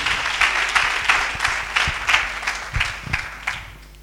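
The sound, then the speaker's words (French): A church audience applauds in praise of Jesus, with brisk, evenly timed clapping in a steady beat that tapers off toward the end. “On acclame Jésus.”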